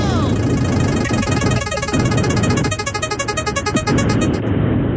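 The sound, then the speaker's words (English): A prize wheel spun during a radio giveaway, heard as a fast run of rhythmic ticking pulses over a loud, busy mix of sound. “3, 2, 1, spin the wheel!”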